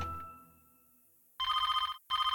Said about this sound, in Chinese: 啊，电话响了。